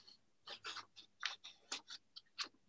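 Soft scratchy strokes of a pen drawing on paper, a quick, irregular series of short rasps separated by brief pauses. Faint and with nothing else heard.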